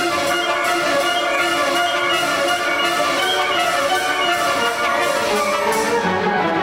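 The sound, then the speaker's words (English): A symphony orchestra plays as heard by the audience in a concert hall, a loud, dense and sustained wash of full ensemble sound with steady, layered tones holding throughout. “For the second piece, Scythian Suite by Sergei Prokofiev, I moved to the other side of the stage, close to the brass. While the piece sounds like this in the hall,”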